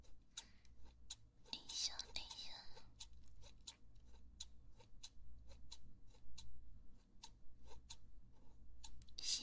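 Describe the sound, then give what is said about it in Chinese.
Scissors snipping hair during a trim, a long run of crisp, evenly spaced metallic snips with soft whispering and faint low background noise underneath. “头发的声音吗？剪头发很疗愈吧？”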